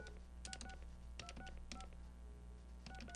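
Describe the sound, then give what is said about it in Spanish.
Touch-tone dialing of a telephone number to reach a public services office: a series of short, bright dual-tone beeps in separate bursts over a steady low hum. “Bueno, volvemos a marcar. Vamos a volver a insistir una vez más, comunicándonos con Servicios Primarios.”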